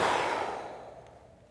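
A single long exhaled breath, a soft airy rush that starts strongly and fades steadily to near silence.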